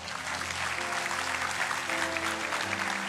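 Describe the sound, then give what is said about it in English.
Church audience applauding as the pastor returns to close the service at Mount Paran North. Dense, steady clapping fills the whole stretch without a break, holding an even loudness from start to finish. “Hey, keep those hands together. Welcome back, Pastor Kirk, as he closes our service today.”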